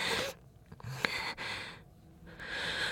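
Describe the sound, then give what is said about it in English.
Heavy breathing from a person trying to catch their breath: a few noisy, breathy inhales and exhales separated by short pauses, quiet and unaccompanied by speech. “I try to catch my breath. I need to catch my breath.”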